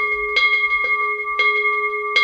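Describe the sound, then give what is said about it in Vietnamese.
A temple bell is struck twice, with a pause between strikes, to wake it before a ceremony begins; each stroke gives a bright clang with steady ringing tones that sustain and overlap, with no talk. “Bắt đầu vào khóa lễ thì chúng ta cũng thức chuông, hay còn gọi là rắc chuông hai lần như thế này, và bắt đầu chúng ta thỉnh hồi chuông.”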